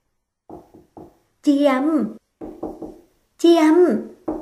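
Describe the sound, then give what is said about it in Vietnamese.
Knocking on a bathroom door: two sets of three quick, light raps, each set followed by a voice speaking, alternating evenly. “Nghiên Hy ở bên ngoài đợi hơn 10 phút, thấy cô còn chưa ra, lo lắng gõ cửa.”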